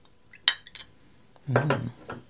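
A spoon clinks against a gold-rimmed collectible cup and a silver tin as sugar is added to coffee: one sharp clink, a few lighter taps, then a short cluster of rattling metallic clinks.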